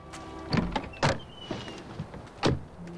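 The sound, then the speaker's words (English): Car door clunks from a Jaguar pulled up outside a house: a few short, muffled thuds and knocks spaced irregularly over quiet background noise, with one sharper impact near the end. “Turning off the lights, Max gets out and goes to the boot, ignoring Stella”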